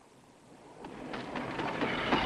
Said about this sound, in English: Daytime, at a train station. Yuri! Tonya! As the train pulls into the station, Yuri runs alongside,